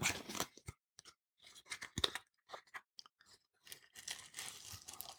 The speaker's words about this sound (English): I'm going to do some ASMR here. Crinkle, crinkle.